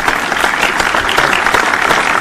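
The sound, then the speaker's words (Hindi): Audience applause at an entertainment programme, a dense, continuous wash of many hands clapping that fills the whole clip at a steady, loud level. “तो आइए जमकर बजाइए तालियां और हमारे कार्यक्रम का आनंद लीजिए।”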